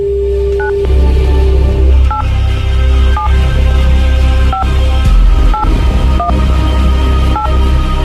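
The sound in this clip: Touch-tone beeps of a telephone number being dialed, a string of short, evenly spaced dual-tone pips sounding clearly over a low, steady rumble, with no talk.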